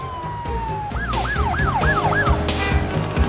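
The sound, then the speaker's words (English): Sirens of an ambulance and a fire engine race past, with a loud wail that swings rapidly up and down in repeated whoops over a steady rumble of traffic. “An ambulance speeds by, as does a fire engine.”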